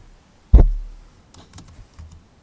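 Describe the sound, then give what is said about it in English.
Keyboard keystrokes as a name is typed on a computer: one sharp, loud tap followed by a few faint, scattered clicks. “why don't you type in her name and then documentary.”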